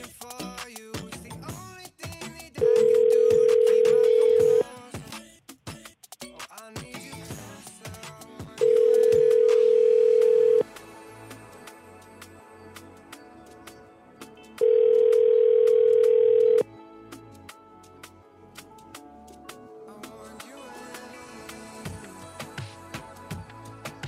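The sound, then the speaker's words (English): A telephone rings on an outgoing call: three long, steady ringback tones, each about two seconds, separated by gaps of several seconds. “Ringing.”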